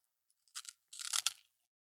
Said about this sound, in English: Okay, I'm putting my hand in the packet. Here it comes.